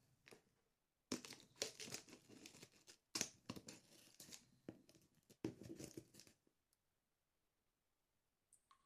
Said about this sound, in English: I'll use a scissor. Now it says it says cut along the dotted line, so I'm just going to cut the tape.